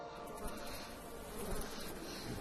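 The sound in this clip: A buzzing bug drones steadily and faintly without a break, its low hum holding an even level throughout.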